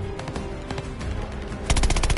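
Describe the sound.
Automatic gunfire from a video game crackles in rapid repeated bursts, with a denser, louder volley breaking out near the end; no talking.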